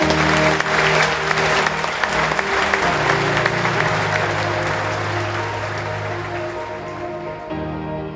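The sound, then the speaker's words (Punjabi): Applause fills a packed Sydney Town Hall theatre as a psychologist leaves the stage after a TED talk: dense, rain-like clapping from many hands, loud and continuous, easing slightly toward the end. “Sydney town hall ਦੇ ਇੱਕ ਭਰੇ theatre ਦੇ ਅੰਦਰੋਂ ਤਾੜੀਆਂ ਦੀ ਗੂੰਜ ਜਦੋਂ ਮਨੋਵਿਗਿਆਨੀ doctor ਸੈਂਡਰਸਨ ਔਨੀ ਆਪਣੀ ਟੈਡ ਟਾਕ ਪੇਸ਼ ਕਰਨ ਤੋਂ ਬਾਅਦ ਸਟੇਜ ਤੋਂ ਹੇਠਾਂ ਆ ਰਹੇ ਹਨ।”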